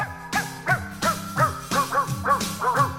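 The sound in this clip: Dog barks and yips arranged into a pop song melody, a quick rhythmic string of short pitched barks with sliding tones, each bark stepping to a different note.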